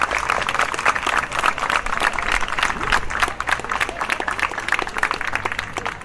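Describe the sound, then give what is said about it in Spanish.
Audience applause welcoming a guest at an event, many sharp individual claps forming a lively, uneven patter that holds fairly steady and thins slightly toward the end. “la recibamos con un fuerte aplauso, ¿no?”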